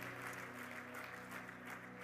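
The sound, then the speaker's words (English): An audience clapping hands in church: a faint, even patter of many hands beneath sustained musical tones. “And as a sign of your belief, why don't you clap your hands in belief? Because you believe.”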